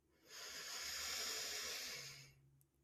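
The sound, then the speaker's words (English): A deep inhale through the nose: one long, smooth, airy breath that swells in and tapers off over about two seconds, alone with no talk. “Breathe in deeply through the nose.”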